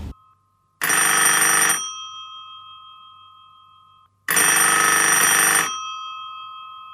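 A telephone rings twice for an incoming call, each ring a loud, bright electronic trill lasting about a second, followed by a slowly fading tone before the next.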